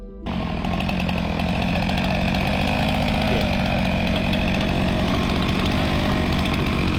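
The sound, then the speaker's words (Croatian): Saws and an excavator cut through ice to make a swimming pool at an Antarctic research station. A loud, steady roar of engines and cutting fills the whole clip without a break, and no voices are heard. “članovi ekspedicije u istraživačkoj stanici Casey koristili su pile i bager kako bi sebi napravili svojevrsni bazen za plivanje”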